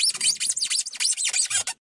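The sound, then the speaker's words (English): Teeth biting and scraping on a block of styrofoam give a rapid series of sharp, high, squeaky rubbing squeals, many in close succession with brief gaps, fairly loud and alone before stopping abruptly. “Here's the sound of teeth on styrofoam.”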